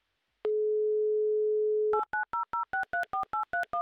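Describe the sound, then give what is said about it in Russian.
An outgoing telephone call begins with a steady, even dial tone, then a rapid run of short keypad beeps at alternating pitches as the number is dialed. “Прямо сейчас звоним.”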